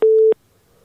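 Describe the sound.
A single steady low beep of a telephone busy tone after a dropped call, sounding once briefly and cleanly, then falling to near silence.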